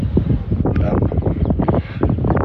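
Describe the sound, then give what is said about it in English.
Wind blows outdoors at a bus stop by a park in Surbiton, buffeting the microphone with continuous gusty, low rumbling bursts that rise and fall unevenly throughout. “wind's got up again.”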